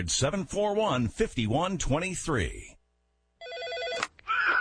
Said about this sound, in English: This is your old PBX phone system.